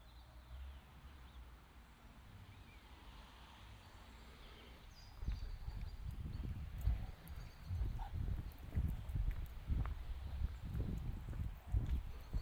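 Horse hooves clip-clop at a walk. Many hoof strikes fall in a steady rhythm from partway through to the end, moderately faint over soft background noise.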